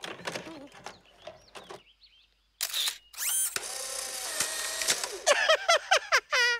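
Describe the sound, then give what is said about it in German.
An instant camera snaps a photo with a crisp shutter click, then a loud motorized whir as the print is ejected. Voices talk before and after. “Ich habe ja hier meinen Fotoapparat. Ja, der macht sogar Fotos, die man sich sofort angucken kann.”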